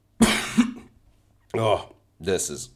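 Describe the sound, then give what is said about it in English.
A few harsh coughs from someone with a lingering cough, in short separate bursts with pauses between them. “this is terrible. My cough is still there.”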